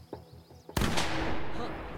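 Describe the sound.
A single rifle gunshot fires in a video game, a sharp loud blast with a long decaying rumble. Quiet voices talk before it.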